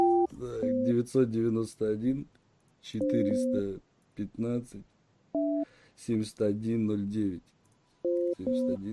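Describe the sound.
Telephone dialing tones: a few short, steady electronic beeps at fixed pitches sound while a number is being entered, interspersed with a man talking between them.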